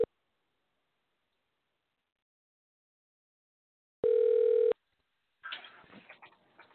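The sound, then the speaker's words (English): Ringing tone while calling a friend on the phone: after a long silence, a single steady beep of under a second, followed by a brief, faint burst of noise. “I'm calling an old college friend that used to post with me.”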